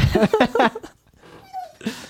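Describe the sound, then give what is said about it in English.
An excited dog whimpers, giving a few thin, high whines and breathy yips, one of them sliding downward in pitch, all at a fairly soft level. “That's just my dog. That is not part of the movie.”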